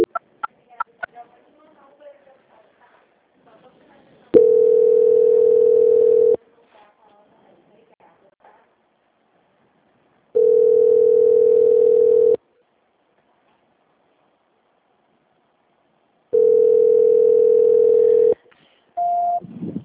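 A telephone transfer tone plays on the line: three long, steady, mid-pitched beeps of about two seconds each, evenly spaced with silent gaps, then a shorter beep at the end, after a few faint clicks at the start.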